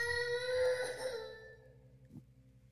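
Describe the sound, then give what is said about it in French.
A baby's wailing cry comes from another room, echoing as if in a basement; the harmonic cry is loudest at first, then thins and fades away, leaving near-silence with one faint brief sound at the end. “Et alors que tu la relâches, tu vas entendre comme des pleurs de bébé. Ça ne vient pas de la pièce.”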